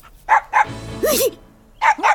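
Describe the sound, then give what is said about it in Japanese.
A dog barks in a few sharp, loud bursts, with a higher, strained yelping sound in the middle of the run. “どうしたの、そんなに吠えて。 こら、ダメだよ。お座り。”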